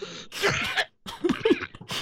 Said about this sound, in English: Mute that hacky phlegm crap. When I'm coughing, it's hard.